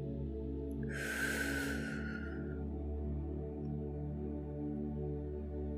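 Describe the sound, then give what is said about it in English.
A deep in-breath, a soft airy rush lasting about a second, rises over a low sustained drone during a guided meditation. The drone carries on alone after the breath ends. “Let's take a deep breath in of that rich oxygen.”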